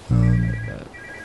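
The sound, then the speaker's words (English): A mobile phone ringtone sounds as one loud, steady electronic tone lasting about half a second, followed by a fainter, higher tone that fades out. “Is that my phone? That's Bill's phone. Oh, that is my phone.”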